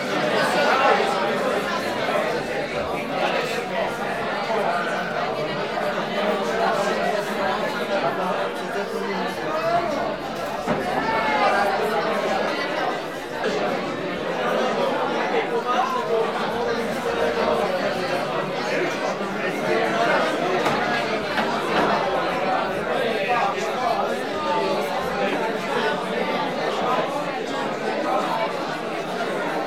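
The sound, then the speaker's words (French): Steady babble of many overlapping conversations from a neighbouring pub, heard from a restaurant terrace in Brussels, loud and continuous with no single voice standing out. “Le bruit des conversations du pub d'à côté était parfois tellement fort qu'il m'empêchait d'entendre ce que me racontaient mes collègues.”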